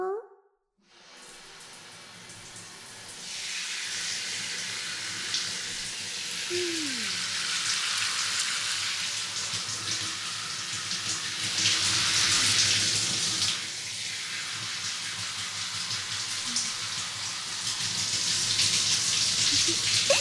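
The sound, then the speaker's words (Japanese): Running water poured to rinse, a steady hissing, splashy stream that starts abruptly after a brief quiet moment and flows continuously, its loudness shifting slightly as the flow moves. “はい、流しますよ。”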